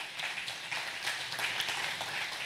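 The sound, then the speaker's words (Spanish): Applause from an audience at a religious service, given as comfort to a family: dense, steady clapping that runs the whole time with no voices over it. “Un aplauso ahí de consuelo para mis hermanos.”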